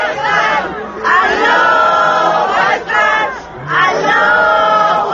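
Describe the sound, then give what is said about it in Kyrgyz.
Funeral mourners chant the name of Allah together in a loud, massed chorus. The voices come in repeated drawn-out phrases, separated by brief dips. “Шаршембиде анын тажиясына келгендер колдоруна гүл көтөрүп Алланын атын чакырып жатышты.”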